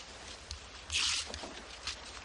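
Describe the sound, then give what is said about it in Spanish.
A sheet of newspaper is ripped out in one quick, rasping tear, a brief crisp burst standing out from faint background noise. “Arranca una hoja del diario y se la lanza a su compañero.”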